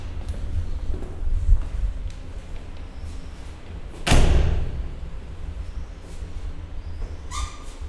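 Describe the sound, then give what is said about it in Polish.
A toilet door is opened, marked by one loud thud midway, over a low rumbling background with a few softer knocks before and after. “tu coś się dzieje. Zaraz otwieram toaletę.”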